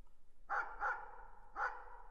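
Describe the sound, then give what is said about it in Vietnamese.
A black dog barks loudly outside the door: three sharp, mid-pitched barks, the first two close together and the third after a short pause, with no voices. “Con chó mực sủa inh ỏi ngoài cửa, biết có người đang đến, ông Bảy Cư”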